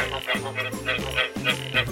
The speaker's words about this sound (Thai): สัตว์รูปร่างเหมือนกบนะคะแต่ว่าผอมกว่าเกาะอยู่ตามต้นไม้ฝาบ้านผนังห้องน้ำ